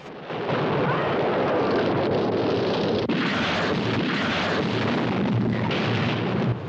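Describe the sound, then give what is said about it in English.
A torpedo explosion blasts an attackers' boat: a loud, dense roar that holds steady for several seconds, with one brief dip midway, and nothing else heard. “The torpedo blazes through the water. The attackers swerve out of the way to avoid it, but it's too late. The torpedo turns round and follows them.”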